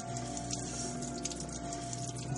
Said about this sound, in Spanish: enjuaga un puño sanguinolento bajo el grifo del fregadero